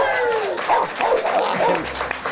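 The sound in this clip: A corgi barking in short, high yips and whining calls, a few quick bursts that rise and fall in pitch, heard alongside talking voices.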